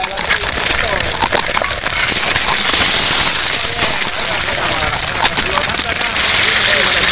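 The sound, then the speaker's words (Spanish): Torta frita dough frying in hot oil gives a loud, dense, continuous crackling sizzle that stays steady for the whole seven seconds. “Ahora vamos a tirar la torta frita. Vamos haciendo la torta frita, tiramos una torta frita. Así, vamos a sacar la primera torta frita.”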